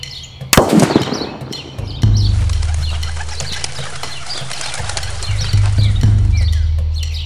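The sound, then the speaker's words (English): A rifle bullet strikes a tin can with one sharp, loud crack. About a second and a half later comes a duller, heavier report, and a low rumble lingers to the end. “The bullet struck the can. 2.5 seconds later, the report of the rifle.”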